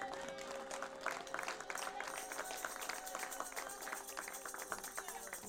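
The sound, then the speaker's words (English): A church audience claps, a faint, scattered patter of hands over quiet sustained keyboard tones. “You better clap.”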